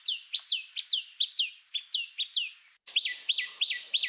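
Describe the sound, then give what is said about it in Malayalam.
Common tailorbird calling: a rapid, steady series of sharp, high chirps, each note a quick downward-sweeping whistle. A brief pause follows, then another run of loud, similar chirps. “തുന്നാരൻ്റെ ഒന്നോ രണ്ടോ ശബ്ദങ്ങൾ അഥവാ കോളുകൾ നമുക്കൊന്ന് ശ്രദ്ധിക്കാം.”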